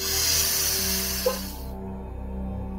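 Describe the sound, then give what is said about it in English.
A deep breath drawn in during a heart chakra meditation, a loud steady airy hiss for nearly two seconds that then stops, leaving a soft sustained musical drone that runs underneath throughout. “and deep breath out. Deep breath in”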